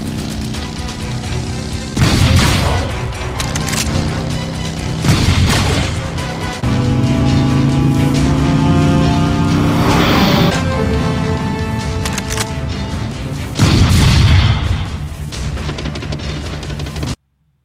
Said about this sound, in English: I feel so bad for him. He got shot by a robot.